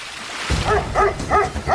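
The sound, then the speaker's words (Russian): Four short barks from a dog barking at a boat by a river, evenly spaced and fairly loud over a low, rumbling background. “Нет, он на лодку лает.”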